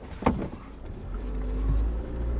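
A car driving, heard as a low, steady engine and road rumble that grows slightly louder toward the end, with a few brief higher sounds near the start.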